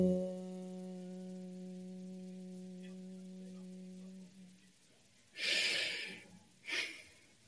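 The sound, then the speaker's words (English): Breath drawn in through the nose and let out through the mouth, a cleansing breath before chanting, comes as two airy bursts, the first longer, after a steady low humming tone fades to quiet. “So I'll inhale through my nose, exhale out of the mouth, inhale.”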